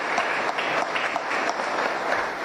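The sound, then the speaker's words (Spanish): Audience applause for twin sisters who became badminton champions: dense, steady clapping from many hands that fills the whole clip at an even level, with no talk over it. “un aplauso para ellos”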